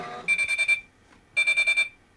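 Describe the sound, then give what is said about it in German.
End-of-cycle beeping from a Chinese-made washing machine: two bursts of five quick, bright, high-pitched beeps, separated by a short pause and standing out loudly over a faint background. “Das ist leider auch nicht der Original Programmende Pieps der Miele W1, sondern dieses chinesischen Modells.”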